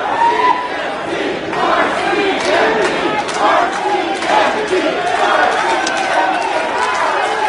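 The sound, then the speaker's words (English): A loud crowd shouts and clamors at a wild Surrey City Council meeting at Surrey City Hall, with many overlapping raised voices and cries forming a dense, continuous roar that swells and dips. “That's not the sound of a protest rally on the front steps of the legislature. That's actually Surrey City Hall last night and a wild meeting of Surrey City Council.”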